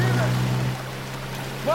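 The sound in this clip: A boat's engine drones low and steady as the boat moves away across water, then drops to a quieter hum; a brief voice cries out near the end.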